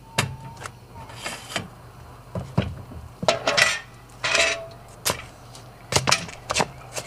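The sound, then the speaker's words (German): A metal pot is handled and put away at a café counter. Many clattering clanks and knocks of metal cookware come at irregular intervals, some sharp and some in short rattling bursts. “Oh, ich räum mal den Topf weg.”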